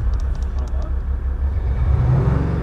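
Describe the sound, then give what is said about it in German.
A diesel car's engine is revved with the gear selector in B. A steady, heavy low rumble swells and rises in pitch during the final second. “der steht jetzt auf B, dann können Sie mal ein bisschen Gas geben.”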